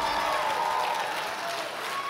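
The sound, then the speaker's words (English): Audience applause and hand clapping at the opening night of a church revival meeting. A dense, steady wash of clapping fills the whole clip at a fairly strong level, with a held tone faintly audible beneath it. “Give Jesus a great hand clap on this opening night.”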